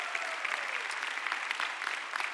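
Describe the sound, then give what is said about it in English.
Audience applause welcoming a family from Portugal at a Sunday gathering: dense, steady clapping that carries on without a break from start to finish. “Let's give them a hand to Portugal.”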